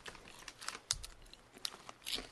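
Someone bites into and chews a crispy dried-scallop snack, making faint, brittle crunches. A few sharp cracks stand out among softer crackling chews in an irregular rhythm.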